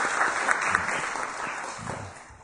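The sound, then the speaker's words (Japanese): A church gathering applauds to send off a departing teacher, with steady, even clapping that gradually softens toward the end. “はい、拍手を持って先生を送り出したいと思います。”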